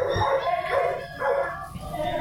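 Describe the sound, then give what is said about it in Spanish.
A dog howls and whimpers in a few wavering wails mixed with short yips, loud and close, while a person talks alongside. “Yo no sé, por eso le digo, vean los movimientos del perro.”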